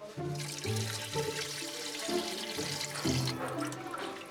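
Water running from a tap into a cooking pot, about a litre for a vegetable couscous. It makes a steady, continuous splashing rush with a shifting, ringing tone as the pot fills, heard alone.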